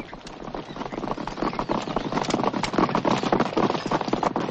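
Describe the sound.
Horse hooves clip-clopping as riders advance among trees in a 1983 medieval adventure drama; many quick, irregular hoofbeats, fairly soft and continuous, with a rain-like crackling texture and no voices.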